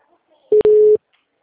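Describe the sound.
A telephone tone sounds while a call is placed: a short steady beep and then a longer one at the same mid pitch, alone and clear, lasting under half a second.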